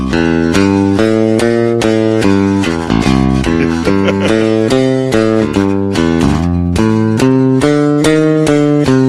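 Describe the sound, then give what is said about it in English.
An electric bass guitar, picked with a pick near the bridge, plays a blues line of bright, twangy plucked notes in a steady, driving rhythm, with a brief pause near the middle. “I essentially played blues, which is what my, you know, teacher showed me, with that sound picked by the bridge.”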